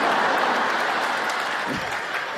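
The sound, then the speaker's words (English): A studio audience at a Weekend Update comedy segment cheers and applauds in a dense, steady roar that eases slightly toward the end. “Yeah, you cheer, but I don't think you realize how that makes me feel.”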